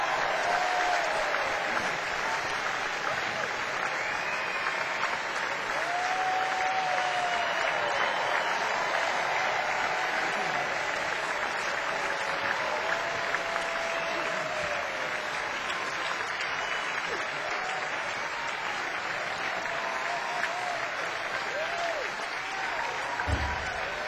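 Audience applause welcomes Rosanne Cash and John Leventhal onstage: dense, sustained clapping from a crowd that holds at an even level for the whole stretch without pausing.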